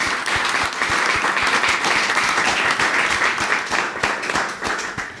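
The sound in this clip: Audience applause welcoming a speaker at a talk: dense, steady clapping from many hands that holds for several seconds, then thins and fades toward the end.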